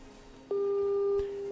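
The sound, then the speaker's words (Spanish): A telephone ringing on speakerphone during an outgoing call: a single steady, mid-pitched ringback tone lasting about a second, starting and ending abruptly, with no talk over it. “Sonando, sonando. Marqueando, marqueando. A ver, a ver, a ver. Está sonando el teléfono.”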